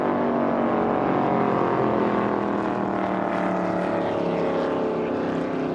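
Deep exhaust roar of a 2004 Eliminator racing powerboat engine at speed, a loud, continuous low rumble with a rich harmonic growl that holds steady through the whole stretch.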